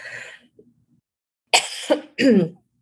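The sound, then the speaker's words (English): Throat clearing from an itchy throat: two rough, harsh bursts close together near the end, following a softer breathy sound and a brief pause. “So I'm getting a little itch in my throat, which just means there's something about your voice that wants to clear.”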